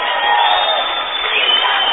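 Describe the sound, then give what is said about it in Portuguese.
Audience applause and cheering at a sertaneja music event: a steady, dense roar of clapping and crowd noise, muffled and lacking treble, lasting about two seconds. “Um aplauso de vocês.”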